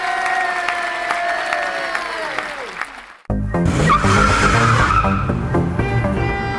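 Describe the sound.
A car speeds along in a chase in a comedy audio drama. A whining engine tone slides downward in pitch, then cuts off abruptly into a louder, dense wash of noise.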